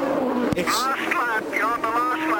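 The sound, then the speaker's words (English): A race car engine on the final lap of a Las Vegas race, with the leader easing the throttle to save fuel. It drones with smooth sweeping rises and falls in pitch under steady commentator talk. “Sounds like he's saving fuel right now. I mean, when he went through the chicane that time, normally he would just lighten it up, and boy, he really laid the throttle down easy.”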